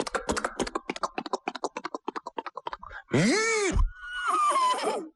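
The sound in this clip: A horse neighs long and shrill as it pulls up and stops, following a quick run of sharp clicking taps; the neigh comes in two strong parts, the first arching up and down in pitch.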